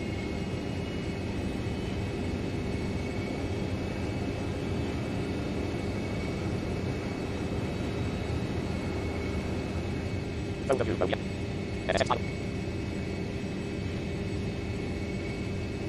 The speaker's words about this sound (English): I don't nearly know what this plane is. It's supposed to be a Cessna T-200, but that does not sound like a Cessna to me. Like, I don't hear the prop.